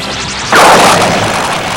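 A ship's weapon systems fire at full power on a target in a video game, a heavy crashing blast. It bursts in suddenly after a short quieter stretch, then holds loud and rumbling to the end.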